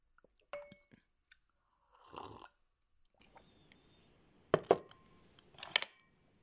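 Someone chewing a home-cooked lunch: faint, scattered crunches and soft clicks of biting. A few sharper, louder bites cluster near the end.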